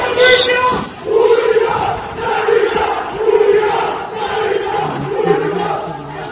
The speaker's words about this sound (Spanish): Pues incidentes que tenían este sonido. Este es uno de los momentos de ese enfrentamiento en un bar de Reyes Católicos, en pleno centro de Sevilla.